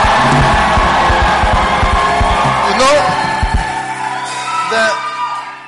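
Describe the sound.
A church choir and audience shout and whoop with joy in a loud, dense roar of voices, with a few high yells rising out of it before it eases slightly toward the end.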